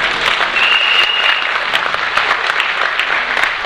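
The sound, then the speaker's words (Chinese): An audience applauds a young boy with dense, continuous clapping made of many quick overlapping claps. The applause stays fairly loud and even throughout. “你看，给这小弟弟一个掌声。”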